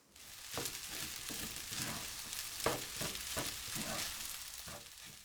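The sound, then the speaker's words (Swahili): Rice sizzles steadily in a frying pan with soy sauce as it is stirred, with repeated scraping strokes over a continuous hiss; no one speaks. “Ili upate ladha nyingi zaidi, ongeza sosi ya soya kijiko kidogo pembeni mwa sufuria. Kisha koroga kila kitu vizuri.”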